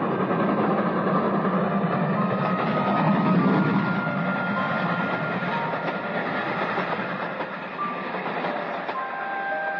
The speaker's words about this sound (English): a brilliantly lighted express train shook the switchman's cabin as it rushed by with a roar like thunder.